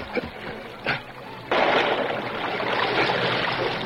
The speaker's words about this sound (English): He ought to forget Luke and save himself. I'll swim out and help him.